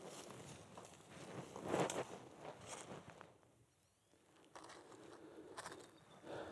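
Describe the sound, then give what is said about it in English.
Soft footsteps walking along a riverbank: faint, irregular scuffing steps with a brief quiet lull partway through before the walking resumes. “So let's walk on down the bank, see what else we can see.”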